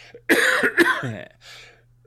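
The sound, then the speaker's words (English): A lingering cough from a cold that has spread through a whole family: a couple of harsh, loud cough bursts, then a softer breathy sound, with no talk. “I've had this cough that my whole family has now that is not COVID, for a little while.”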